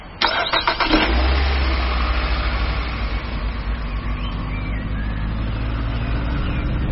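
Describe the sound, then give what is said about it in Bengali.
A car engine cranks with a quick rattling burst for about a second, then catches and settles into a steady, low running drone that carries on to the end. “গাড়িটা পুরুলিয়া শহর ছাড়িয়ে যত গ্রামের দিকে এগোতে লাগল”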